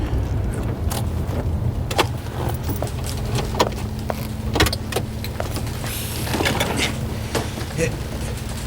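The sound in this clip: A Porsche car pulls up and stops. Its low engine rumble holds steady beneath scattered sharp clicks and knocks, with voices briefly present.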